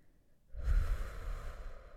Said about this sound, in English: Let's breathe, okay? Ready? Inhale.